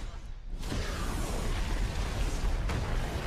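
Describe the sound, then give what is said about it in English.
Bowser's fire breath in a Mario video game, a loud, sustained roaring rush of flame that holds steady with a rough, noisy texture. “And Bowser's got horrible fire breath.”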